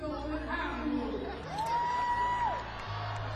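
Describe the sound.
Live concert audience noise reacting to a young guitarist: a crowd murmur with a long whooped tone that rises, holds, then falls away.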